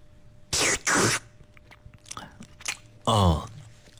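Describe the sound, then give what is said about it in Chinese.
Someone chews glass noodles (vermicelli) while tasting them. A few loud, thick mouth bursts come in short clusters, with softer smacking and munching sounds in between. “好，接下来我再来尝一尝粉条的口感啊。”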